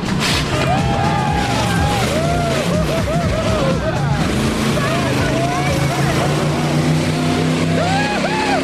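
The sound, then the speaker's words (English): A car engine roars hard through a timed run over a row of parked cars, a loud, continuous, steady drone that stays strong for the whole stretch. “This time it's a clear run over the cars. I think he's getting more confidence in his vehicle. Yeah. I don't think I'd drive it that fast. Nah. Now he really puts his foot down.”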